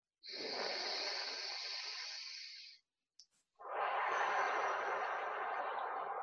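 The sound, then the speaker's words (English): One slow, deep belly breath during a guided breathing exercise: a long, soft, airy inhale, a brief pause, then an equally long, breathy exhale. The whole breath is quiet. “You can place your hand on your belly as we take one more deep breath into our belly.”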